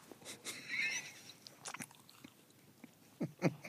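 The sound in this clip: Someone eating a waffle: faint, soft crunchy bites and chewing come in a few irregular bursts, with quiet gaps between and a slightly louder pair of crunches near the end.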